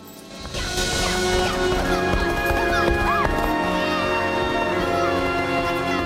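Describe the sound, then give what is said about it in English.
Racehorse hooves galloping down the straight at Turfway Park racecourse, a fast, steady drumming that swells in within the first second and holds loud to the end, with tonal sounds behind it. “Channing and Stripes gallop down the straight past the grandstand and hospitality tents of Turfway Park.”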